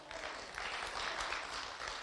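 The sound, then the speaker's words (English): An audience gives a guest steady applause, with dense continuous clapping that holds an even level throughout without a break. “You want to give her a hand clap for coming with us?”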